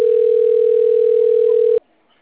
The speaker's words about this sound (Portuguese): Aí agora estão me ligando.